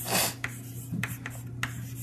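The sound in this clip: Writing on a board during a physics lecture on spin channels, with a few short scratchy strokes and rubbing sounds and no talking.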